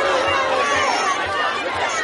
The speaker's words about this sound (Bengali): এরই মধ্যে ব্রাসেলসে নেটোর সম্মেলনকে কেন্দ্র করে হাজার হাজার মানুষ বিক্ষোভ করছেন নেটো এবং প্রেসিডেন্ট ট্রাম্পের বিরোধিতা করে।